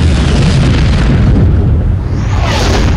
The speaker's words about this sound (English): The payload is dropping. And we got a nuke thing.